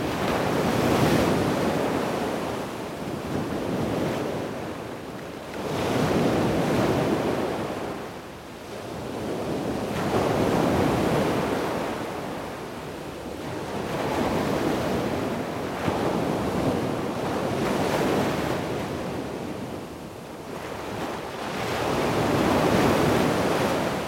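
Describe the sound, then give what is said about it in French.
Sea waves surge and break on a windy shore in slow, steady swells roughly every five seconds, each wash of surf rising and falling under a constant rush of wind. “Un peu de vent, encore un peu de sable. Et la mer, et la ville.”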